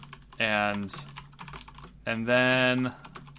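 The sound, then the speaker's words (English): Faint, quick clicks of typing on a computer keyboard tap along underneath, picked up by a microphone while a voice sounds over them in two short stretches. “I'll get a better mic one day that doesn't pick up my typing.”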